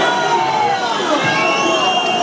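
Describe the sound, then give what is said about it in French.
A rugby stadium crowd loudly protests, demanding a penalty after a replayed tackle on a player. A dense, sustained roar of many shouting voices continues at high volume through the whole clip. “Et sur les écrans, il y a le placage sur Théo Duprat qui repasse. Non, non. Et le public qui réclame.”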